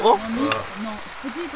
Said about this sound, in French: Le doux bruit des patates.